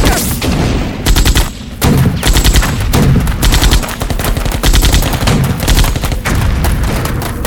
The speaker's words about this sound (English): Shut up and concentrate, soldier! We're taking heavy fire!